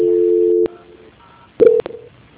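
Telephone call transfer tones: a steady electronic tone holds, then cuts off abruptly, followed after a quiet gap by sharp clicks and a brief, louder beep.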